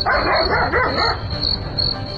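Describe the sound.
Dogs bark a few times in quick succession early on, then fall quiet, while a constant high-pitched insect drone runs throughout.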